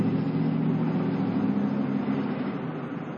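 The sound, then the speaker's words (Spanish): Lincoln car engine as it parks under an overpass, a steady low humming drone that eases off slightly toward the end. “Nosotros seguimos al Lincoln. Aparcan bajo un paso elevado.”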